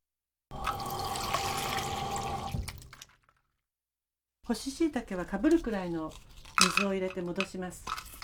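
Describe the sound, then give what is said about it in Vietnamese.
Water is poured over dried shiitake mushrooms to soak them, a steady rushing stream lasting about two and a half seconds before it stops; after a short silence, a voice follows. “Bước đầu tiên là ngâm nấm hương vào nước.”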